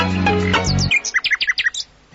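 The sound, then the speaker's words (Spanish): A little bird chirps in a vegetable garden where it has been eating lettuces, giving many short, high-pitched chirps in quick, uneven succession. “¿Así que eres tú, pajarito, el que destroza las lechugas de mi abuelo?”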